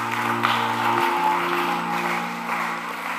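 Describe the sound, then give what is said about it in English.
An audience applauds in praise during a church service, a steady wash of clapping that stays even for the whole stretch over sustained musical tones. “Give the Lord a mighty clap of”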